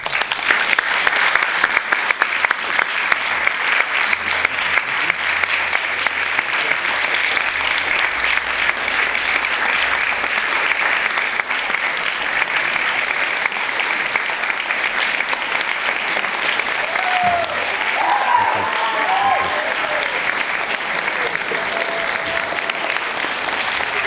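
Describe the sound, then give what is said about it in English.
An audience at the Constitution Center gives long, sustained applause to welcome panel guests, including a congressman. The clapping holds at an even level for more than twenty seconds, and a brief voice comes through near the end. “please join me in welcoming civil rights pioneer Congressman John Lewis, Andrew Iden, and President and CEO of the Constitution Center, Jeffrey Rosen.”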